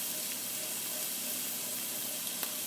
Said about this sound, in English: We just want to get these onions cooking and starting to turn translucent, starting to soften up.